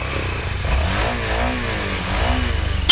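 Motorcycle engines revving: Suzuki, Yamaha, Honda, Aprilia and BMW bikes arriving for a rally in Mullingar, Ireland. A loud, continuous engine drone swells and dips as the revs rise and fall, ending in a sudden louder burst, with no talk.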